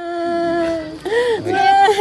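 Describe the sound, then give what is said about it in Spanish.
A mother weeps inconsolably for her 21-year-old son, killed in flash floods between Nepal and Tibet. Her loud, sustained, wailing cries waver in pitch, with brief catches and breaks between them. “Esta madre llora desconsolada por su hijo de 21 años que murió en las repentinas inundaciones entre Nepal y el Tíbet del pasado miércoles 26 de agosto.”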